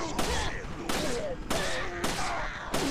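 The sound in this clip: Gunfire in a video game rings out in a series of loud, sharp bursts at roughly even intervals, each followed by a short ringing tail, with tonal sounds running through it.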